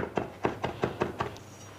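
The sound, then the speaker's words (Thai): A knife chops herbs in a short, even series of dull knocking strikes at a steady rhythm, fairly faint, with no talk over them. “แล้วก็สับสมุนไพรจะเป็นสมุนไพรเฉยๆหรือว่าจะเป็นสมุนไพรใส่ชีสอย่างนี้ก็ได้ค่ะ”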